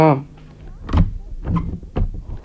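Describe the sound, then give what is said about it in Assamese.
A house door is pushed shut, giving a few dull thumps and knocks spread over about two seconds, with a voice heard briefly at the start. “দুৱাৰখন বন্ধ কৰি দিওঁ”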